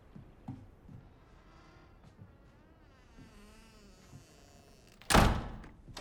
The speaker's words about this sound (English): She closes the front door.